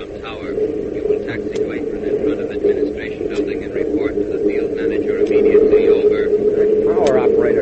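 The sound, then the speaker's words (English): An airplane engine drones steadily as the plane taxis, a continuous low hum that slowly grows louder while people talk over it. “Looks like he's going to taxi right up to the same place we are. I'm watching him. He seems to have control of the ship, all right.”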